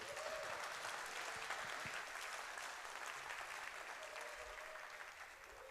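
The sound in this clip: Steady audience applause welcoming a speaker to a talk: continuous, fairly faint clapping with an even texture that fades slightly toward the end.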